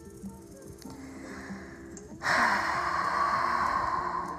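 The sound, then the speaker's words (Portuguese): A forceful exhalation with abdominal contraction during a standing breathing exercise: a quieter inhale, then a sudden loud rushing blast of air that holds strong and steady for about two seconds. “vai inspirando profundo, expirando forte, contraindo a musculatura do abdômen, projetando o ar para fora na exalação.”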